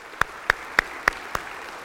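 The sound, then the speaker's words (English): Hand claps of praise at a church service: five sharp, evenly spaced claps in a steady rhythm, crisp and fairly loud against quiet background, the last one slightly softer. “let's put our hands together for a hand clap of praise”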